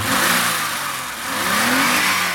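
A car engine revs as the throttle cable is pushed by hand at the engine. It surges loudly, eases off near the middle, then climbs in pitch again in a second rev.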